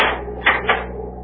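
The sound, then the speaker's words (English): A door being locked in a cabin aboard a Navy cruiser, heard as two quick clicks over a steady hiss. “You may lock the door now.”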